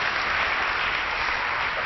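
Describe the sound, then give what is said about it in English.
Dense applause from an audience, a continuous, even clatter of many hands that stays steady without a break. “So y'all give a round of applause for jeans.”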